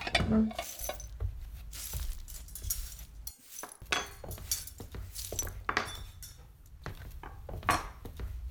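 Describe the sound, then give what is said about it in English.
Dishes and cutlery clink and clatter as a table is set: many irregular, fairly faint knocks and chinks of plates and silverware in a steady scatter. “I can set the table”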